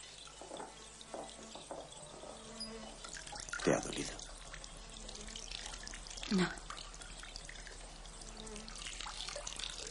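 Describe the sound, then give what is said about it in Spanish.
Water sloshing in a basin as a person is washed: a soft, continuous wash of water broken by two distinct splashes. “Ahora ella está en pie dentro de un barreño lleno de agua. Agachado ante ella, el hombre le lava el sexo.”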